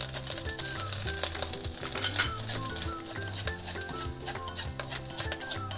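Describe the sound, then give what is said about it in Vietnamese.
Mushroom stems sizzle steadily as they fry in hot oil with lemongrass, with intermittent stirring and utensil clatter on the pan, all over continuous background music. “Rồi dầu nóng lên là mình cho cái chân nấm vào.”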